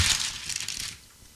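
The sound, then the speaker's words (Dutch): Crinkling and crackling of wrapping paper as a wrapped present is opened: a dense burst of rustling and tearing lasting about a second, then dropping away to near quiet. “Pak jij het even uit. Pak het even uit.”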